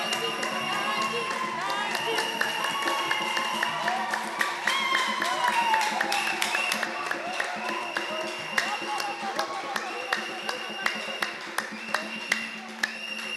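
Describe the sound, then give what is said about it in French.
Congregational clapping at a church prayer gathering: many hands strike in unison, keeping a steady, regular beat throughout, beneath a leader's voice and sung calls. “Oh, clap, clap, clap. Alléluia. Clap for the Lord. Clap for the Lord. Clap for the Lord. Clap for the Lord.”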